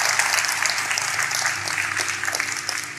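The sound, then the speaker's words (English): Crowd applause: steady, dense clapping from many hands that stays loud and even throughout, with no clear pauses. “Let's clap for that. We love that.”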